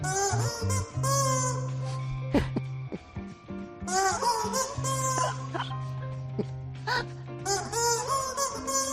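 A rubber chicken is squeezed to play a rock anthem, its loud, drawn-out squawking notes shifting in pitch to form a slow melody, with several tones sounding at once.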